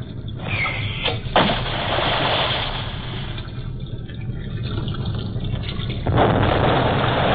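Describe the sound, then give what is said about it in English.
Depth bombs released from a ship exploding: a continuous, dense, watery roar that holds through the whole clip, with a sharp burst near the start and a renewed surge toward the end. “In exactly 5 seconds, give the order to release depth bombs. Yes, sir. Stand by to release bombs.”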